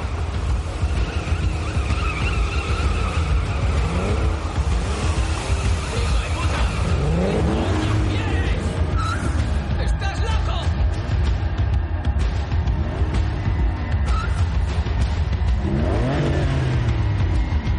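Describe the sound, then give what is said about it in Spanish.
Tires squeal and an engine revs hard as a taxi's rear wheels skid while it circles around people, giving loud, continuous sweeping squeals that rise and fall throughout. “Comienzan a patinar las ruedas traseras del taxi. Da vueltas alrededor de ellos.”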